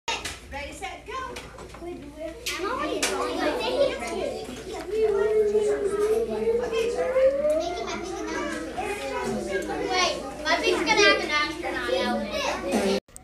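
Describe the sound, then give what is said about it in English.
Classroom noise of many children talking and playing at once, a busy, steady babble of young voices with scattered higher shouts throughout. “there were some classroom noises recorded by our very own Luka Hayes”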